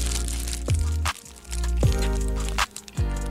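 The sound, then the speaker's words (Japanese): Bites into a chocolate cornet pastry topped with nuts, giving a few sharp, crisp crunches and crackles spaced across the moment. “食べていきたいと思います。なんか上にナッツが乗ってるんですよね。美味しそうじゃあいただきます”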